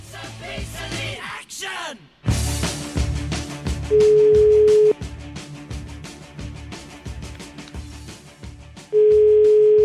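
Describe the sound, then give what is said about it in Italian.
An Italian telephone ringback tone sounds while a call is placed to a mayor of Cascina: two long, steady beeps about five seconds apart over loud, rhythmic, pulsing music. “Io farei una telefonatina a questo neo sindaco di Cascina.”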